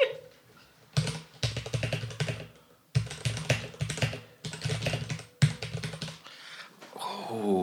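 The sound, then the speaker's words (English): Rapid clicking keystrokes on a mechanical keyboard with brown tactile switches come in several quick bursts separated by brief pauses, fairly quiet with a crisp, clattering texture. “Which has a tactile bump in the middle, so you can kind of feel when the key has sort of registered without having to hit the bottom of the board. So this is me enjoying your brown haptic bump.”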